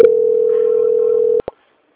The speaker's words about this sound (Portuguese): caiu a ligação